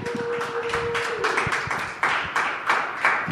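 An audience applauds to welcome a guest, giving fairly even, steady clapping with a loose rhythm throughout and a brief held tone at the start.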